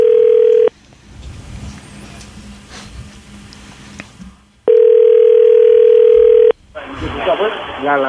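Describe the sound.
A telephone dial tone sounds as a steady single-pitched hum in two loud bursts, the second longer, with a low murmur between them while a call is dialed; a brief, busier burst of sound follows.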